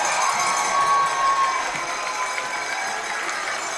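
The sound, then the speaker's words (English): Football stadium crowd celebrating a Falcons win, picked up by the field mic: a steady roar of cheering and applause that eases slightly in the second half. “let's go ahead and catch the crowd reaction here a little bit as they celebrate. I'll turn up the field mic.”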